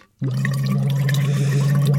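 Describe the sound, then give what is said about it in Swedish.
Bubbling through a phonation tube as a voice warm-up: a voice hums into the tube, making a steady low buzz with gurgling water noise. It starts abruptly and holds loud and unbroken to the end. “Jag har ett fonationsrör här som man ska bubbla i före sändningarna. Låt så här.”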